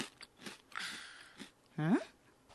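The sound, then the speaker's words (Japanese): Soft crunchy bites and chewing of spicy food seasoned with chili powder come as a few quiet crackly bursts, followed by a short voiced hum. “すごい、 食べてみよう。”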